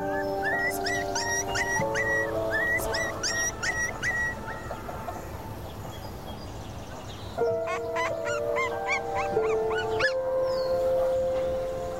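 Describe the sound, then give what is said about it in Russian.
Puppy whimpering: many high, squeaky whines and short yips repeat throughout over a steady tonal hum. “берет одного щенка на руки.”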